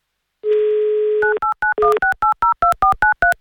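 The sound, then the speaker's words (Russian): Touch-tone telephone keypad beeps as a number is dialed: a steady dial tone sounds first, then a quick, even run of many short two-tone beeps, loud and clear with no voices. “незамедлительно набираю ваш номер.”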